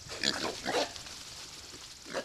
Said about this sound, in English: About a dozen small pigs are running around a fenced area on DL Farms in south central Missouri.